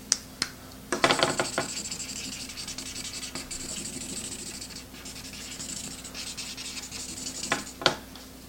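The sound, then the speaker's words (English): Thick, pointed marker tips scratch lines onto paper in a steady, soft rasp of strokes, with a few sharper taps near the start and end; fairly faint and with no talking. “do some lines here. Nice tips on these. You know, they're thick, but they have a point to them, so you can get detailed with your drawing.”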